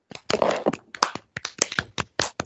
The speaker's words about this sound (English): can we give Axel a round of applause real quick? Hold on, guys. I want everyone to put their fucking hands together, all right? Ready? Here we go.